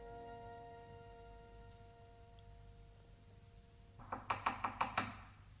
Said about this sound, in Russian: Кажется, стучат. Кто бы это мог быть? Кто там? Откройте, пожалуйста.